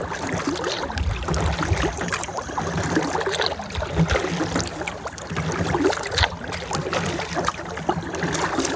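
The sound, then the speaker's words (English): Paddling a boat across water on a fine day outdoors, heard as a steady, continuous wash of water noise and splashing with no talk, fairly even in loudness throughout. “I'll let you hear just a little bit of the serenity for a second of the paddle.”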